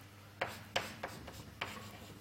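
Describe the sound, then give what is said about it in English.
Writing on a board during a mathematics lecture: several short, faint scratching strokes come at an uneven pace, each a quick rasp with quiet pauses between. “Maybe I write it in the following way.”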